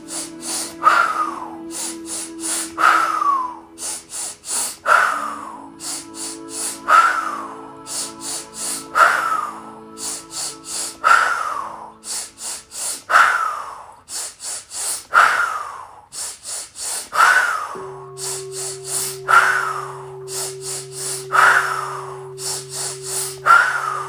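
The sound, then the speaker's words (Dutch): Guided deep breathing: slow inhales and exhales repeat in a steady rhythm, each a soft rushing breath, over quiet sustained background music tones. “En uit. Laatste in. En uit. Daar gaan we. Adem in.”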